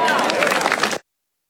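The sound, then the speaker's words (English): Crowd applause mixed with cheering voices, a dense and loud burst that lasts about a second before cutting off abruptly. “Ooh, thunderous applause there.”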